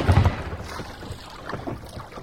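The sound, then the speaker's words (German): Oars splash as a rowing boat is pulled hard across the sea, with a few low, soft splashes early on, then quieter water and steady wind noise. “Der dicke Sven ruderte wie der Teufel, während die Piraten ihre Kanonen klar machten.”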